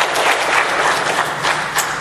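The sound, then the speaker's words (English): Audience applause for a choir and its leaders: dense, steady clapping from many hands, loud and continuous throughout without a break. “Let's give them a big round of applause for all they've been doing this week and leading.”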